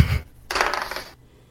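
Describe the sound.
Dice rolled for a tabletop role-playing check: a short low knock, then a brief light rattling clatter lasting about half a second before it settles into quiet.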